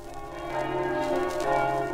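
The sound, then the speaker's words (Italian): Church bells ring to announce and accompany a wedding procession from the bride's home to the church in Aviano, Friuli, in 1955, a steady, sustained ringing of layered tones. “Le campane annunziano e seguono il corteo che dalla casa della sposa si avvia alla chiesa.”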